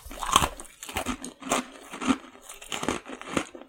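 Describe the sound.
Cookies are crunched and chewed in a few loud, crisp bursts of crackling bites, with quieter mastication between them.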